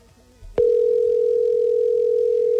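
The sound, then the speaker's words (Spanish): A telephone line sounds the tone of an unanswered call: a single loud, steady, unbroken tone that starts abruptly after a soft click and holds for about two seconds before stopping. “me acaba de decir que la llamada no contesta, no entendí. Ay, no, ese sonidito que desespero.”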